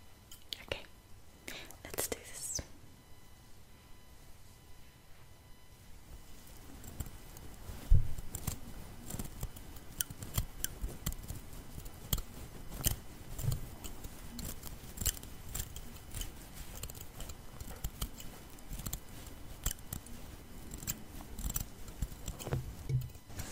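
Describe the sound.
Scissors snip through hair during a haircut, with many quick, irregular cuts running throughout. Soft, low voices murmur under the crisp metallic snipping.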